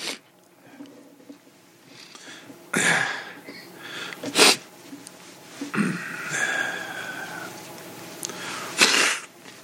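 An allergy sufferer sneezes a few times, sharp explosive bursts rising out of softer sniffling and breathy noise, with quieter stretches between them.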